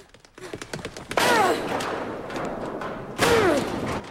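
A person bangs into a high wall of rusting corrugated iron at a dead end. Two loud, sustained crashing impacts with ringing tones follow a few faint, scattered knocks.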